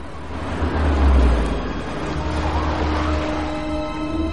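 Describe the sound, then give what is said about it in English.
A car drives along, giving a steady low engine rumble and road noise that swells in the first second and a half, then evens out into a continuous drone. “Mark drives his car over to a riverside near a bridge where Louis parked with his men.”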